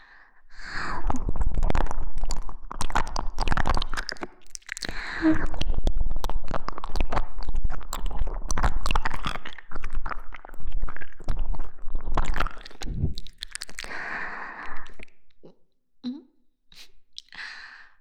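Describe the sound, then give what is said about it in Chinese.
Someone chews and bites into a meat filling with crunchy bones and tomato sauce. A dense run of wet squishes and crisp cracking bites pauses briefly, resumes, then thins into sparse, quieter chews. “咬到了，是肉肉的味道吗？真好吃啊！肉质软软的，骨头脆脆的”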